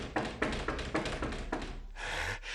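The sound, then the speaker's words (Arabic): Knocking on a door as a sound effect in a radio comedy: a few sharp, evenly spaced taps in a short series. “ها هو ذا آت سيطرق الباب،”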